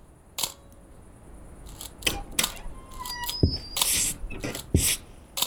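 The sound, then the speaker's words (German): Camera shutter clicks as photos are taken of an empty, unoccupied car: several sharp, bright clicks at irregular intervals, with a few longer mechanical bursts between them. “Ich mache mal ein paar Fotos.”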